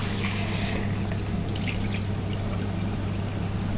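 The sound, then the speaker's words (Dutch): Running tap water pours over freshly picked grapes as they are rinsed, a steady, even rushing splash that holds without pause throughout, with no talking. “Ik pluk wat druiven, romantisch hè. En dan ga ik ze spoelen.”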